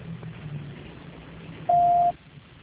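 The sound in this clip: A single short steady beep sounds on a telephone line while a call is dialed, alone over faint line hiss.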